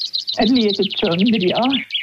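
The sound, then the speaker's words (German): Chaffinch song: a rapid, high trill of many repeated notes runs through nearly the whole clip and ends in a brief flourish, with a person's voice sounding underneath. “Ja, so tönt der Buchfink.”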